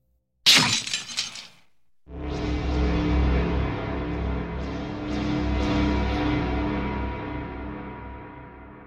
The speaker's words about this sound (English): A beat later, he picked it up with a roar and smashed it against the wall.